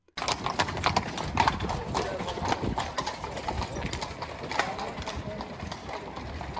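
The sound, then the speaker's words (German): Horses' hooves clip-clop as a rider and several mounted soldiers pass on the way toward a fortress, a dense, continuous clatter of many hoofbeats with voices mixed in. “ist er mit einigen Soldaten um sich herum von seiner Unterkunft an mir vorbei in Richtung der Festung geritten”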